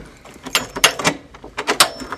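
A math professor's office door at Duke University being opened: a handful of sharp clicks and knocks from the handle and latch, spaced irregularly and fairly loud.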